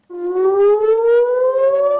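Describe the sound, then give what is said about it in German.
An air raid warning siren wails in northern Israel amid rocket fire from Hezbollah, a loud, steady electronic tone that rises slowly in pitch throughout and sounds alone. “Von Waffenruhe ist im Norden Israels seit Wochen nichts zu spüren. Immer wieder heulen die wahren Sirenen.”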